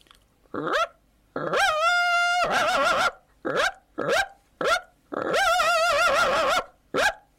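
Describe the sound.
Puppy yips and whines: many short, high-pitched yelps broken by two longer, wavering whimpers, loud and alone.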